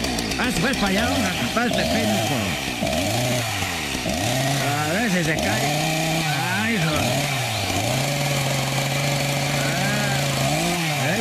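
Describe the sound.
A chainsaw cuts down a pine tree, its engine revving in repeated rising and falling surges before settling into a steady high whine, with people talking over it.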